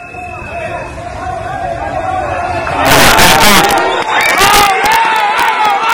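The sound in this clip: Crowd shouting in Cali, Colombia, the morning after a magnitude 7.4 earthquake. A steady murmur of voices swells about halfway through into a loud burst of cheering and yelling that stays strong to the end.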